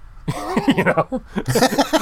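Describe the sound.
A man's voice imitates the Pillsbury Doughboy's giggle in two bursts of bouncy, rhythmic voiced pulses, with a short pause between them.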